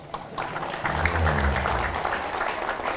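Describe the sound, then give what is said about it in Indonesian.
Brief applause from an audience at a religious lecture: a short, moderately loud burst of many hands clapping together that holds steady for a few seconds. “Nah, baru tepuk tangan.”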